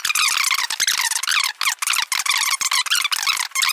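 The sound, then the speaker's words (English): Fast-forwarded video audio from an edited political interview clip, heard as chopped, squeaky, high-pitched garbled bursts of sped-up sound with brief dropouts between rapid fragments. “I don't know what the hell's happening here. A bunch of fast-forwarding.”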